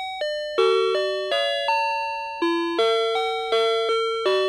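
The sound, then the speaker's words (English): Entrance door chime of a Japanese convenience store, a 1978 melody: a bright electronic bell-like tune of about a dozen distinct ringing notes that step up and down in pitch, each sustaining briefly, clear and alone with no voices. “That's the chime that plays when you walk through the doors of a Family Mart, which is a popular chain of convenience stores in Japan.”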